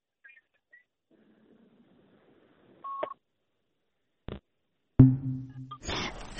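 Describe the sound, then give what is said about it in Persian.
A phone call drops on a call-in line with a single short, faint electronic beep, then a click and a rougher burst of line noise and hum. “آها تلفن آقای غزنفری قطع شد”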